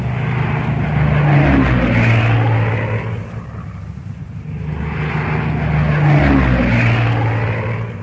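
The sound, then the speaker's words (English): Droning propeller engines of aircraft squadrons circling an airfield in formation. The loud, steady hum swells, eases and swells again in two broad waves. “As they circle the airfield, they are joined by other squadrons.”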